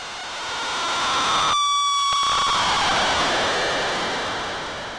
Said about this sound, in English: The sound was created in my laboratory. What we have here is a little machine that is connected up in a way that it might simulate the famous Lorentz equations, the equations that Lorentz devised in 1963 to describe chaotic aspects in the atmosphere.